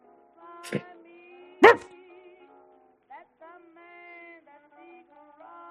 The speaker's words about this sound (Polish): Pies z zadowoleniem zaczął machać tylnią łapą i ogonem. No. Dobry piesek, jeszcze za uszami.